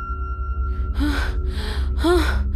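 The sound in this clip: A voice imitates someone panting out of breath after rushing downstairs in a comic horror tale: three quick, breathy, voiced gasps in a row.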